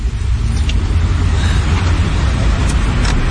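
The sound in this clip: A taxi car arriving gives off a loud, steady, deep engine and road rumble that holds at an even level throughout, with no clear voices over it.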